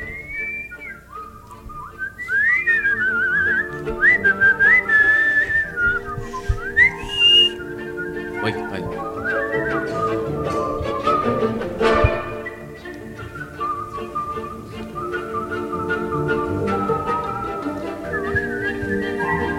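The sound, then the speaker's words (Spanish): A person whistles a wavering, melodic tune that slides up and down in pitch. The whistling is loud and sustained, with short pauses between phrases and a steady low background under it. “¿Eres el silbador oficial? ¿Al chiflidito?”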